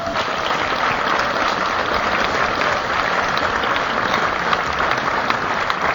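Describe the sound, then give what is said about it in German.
An audience applauds the bass player during a Christmas concert band introduction: thick, steady clapping that holds a loud, even level for about six seconds, with no voices standing out. “Einen kräftigen Applaus für Ben am”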